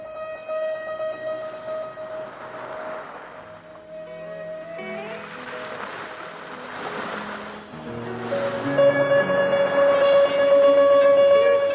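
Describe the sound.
Sea waves wash onto a beach in a steady, rushing surge that swells louder toward the end, with sustained tones running underneath.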